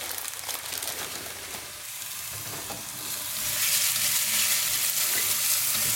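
Onions and celery sautéing in a pan with thyme sprigs and sage leaves give a dense, steady sizzle with stirring scrapes. The hiss grows louder partway through.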